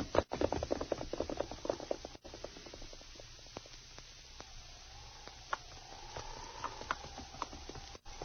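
A horse's hooves clip-clopping while it is ridden on a trail, many steady, even beats with a muffled, thin tone.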